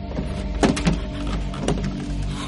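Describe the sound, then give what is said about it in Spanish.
A trailer door, forced with a lever wedged in its frame, being pulled open inward: a few short creaks and clunks over a low, steady rumble, with no voices. “tira de la puerta hacia dentro”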